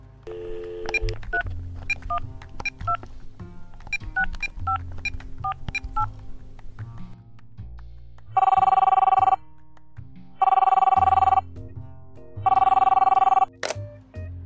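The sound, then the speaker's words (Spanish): A phone number is dialed in a rapid run of keypad beeps, then the telephone rings during the call with three loud, even bursts of electronic ring tone separated by short silences. “Miró la hora y se dio cuenta que era el momento justo de hacer la llamada definitiva. Y entonces llamó.”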